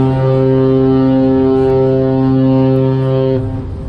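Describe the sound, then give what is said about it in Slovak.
A deep, loud, steady horn blast from a 100,000-ton aircraft carrier warning smaller vessels as it enters San Diego harbour. One long, rich, even tone drops away near the end. “To, čo počujete, je lodná siréna 100 000 tonovej lietadlovej lode USS Abraham Lincoln, ktorou varovala menšie plavidlá pri vplávaní do prístavu v San Diegu.”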